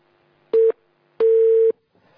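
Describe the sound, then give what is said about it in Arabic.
Telephone busy tone after a dropped call: two steady electronic beeps at one pitch, the first short and the second about twice as long, separated by a brief silence. “يبدو الاتصال انقطع أحبتي الفضلاء.”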